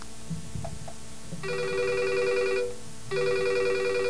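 A telephone rings for an incoming call in two sustained electronic ring bursts with a short gap between them, the second cut off at the end. A few faint low knocks come before the first ring.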